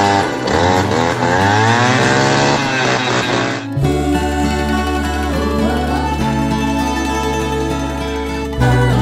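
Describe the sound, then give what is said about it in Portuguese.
A jet ski engine runs on the water, its loud, buzzing tone climbing and shifting in pitch for a few seconds, then settling into a steadier, droning roar. “Tô andando de jet ski, escuta o barulho aí, ó.”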